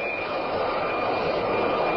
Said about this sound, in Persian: در میانه جنگ ایران و عراق یک جت فالکون ایرانی در فرودگاه بغداد به زمین می‌نشیند.